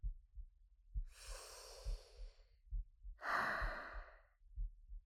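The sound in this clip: A deep breath drawn in, then let out as a long, stronger sigh: two breathy swells, the second louder. Soft low thumps pulse steadily underneath.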